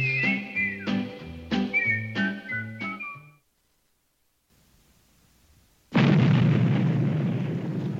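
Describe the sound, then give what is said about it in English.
Dynamite blast set off for underpass construction in a small town. A short melodic passage and a brief silence lead to a sudden loud, broad burst that keeps rumbling and roaring to the end. “when that dynamite goes off, it makes a racket, don't it? But gentlemen, that noise is the sound of progress.”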